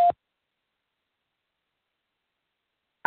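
Telephone conference system tone: a brief electronic beep sounds before a caller records their name, followed by near-silence, with another short burst right at the end.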